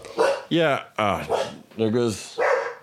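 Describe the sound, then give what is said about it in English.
A dog barks in a quick series of short, loud, tonal barks with brief gaps between them, some sliding down in pitch. “There goes the dog. There goes the dog.”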